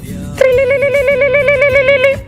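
Ringing tone of an outgoing telephone call: one long, steady, buzzy tone with a slight warble. It lasts about two seconds, starts abruptly and then fades.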